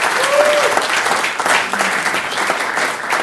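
Conference audience applause welcoming two wheelchair rugby players, a dense, steady wash of clapping that stays loud and even throughout.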